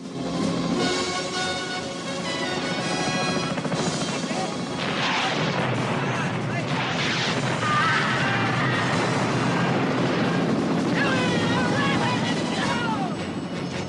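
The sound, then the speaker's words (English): Machine-gun fire, mortar-launched grenades and helicopter rockets in a jungle battle, with heavy booms and rattling bursts merging into a loud, continuous roar, partly under a talking voice. “On a high ridge, the Vietnamese fire grenades from mortars and open up with machine guns. The chopper swoops over the jungle canopy, then dips its nose and descends towards the quarry, firing rockets.”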